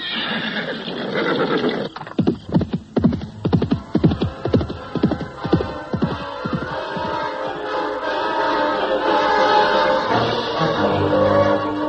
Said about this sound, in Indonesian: Sang Ramawijaya segera melompat ke atas punggung kudanya dan selanjutnya dia berkuda menembus kegelapan malam